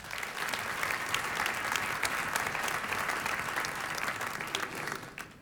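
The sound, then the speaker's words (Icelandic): Concert audience applauding a pianist: sustained, dense clapping at a steady level that thins out slightly just before it ends. “Við gefum honum gott klapp.”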